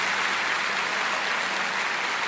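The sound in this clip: A church audience applauds during worship, a dense, steady wash of many hands clapping at an even level without pause.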